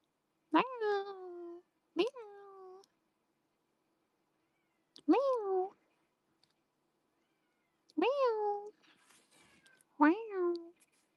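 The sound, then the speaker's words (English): A cat screams loudly in five drawn-out yowls separated by silent gaps. Each call starts with a rising wail and then holds a high, harsh tone. “Oh, my cat's screaming.”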